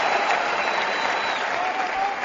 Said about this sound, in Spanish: Nos levantamos nosotros también. Uno de los Yo también aplaudo a Novak Djokovic. Uno de los puntos del torneo, ¿eh?